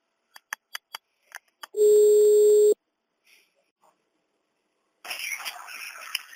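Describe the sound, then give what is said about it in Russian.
Telephone keypad beeps, several short tones in quick succession, then one steady line tone lasting about a second while a second caller is being connected to the call. After a quiet gap, a rough, noisy stretch follows. “Все, не вешай трубку, я тогда сейчас ее подсоединю.”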